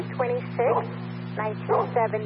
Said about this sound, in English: you're going to need to speak louder than the dog that's barking behind you.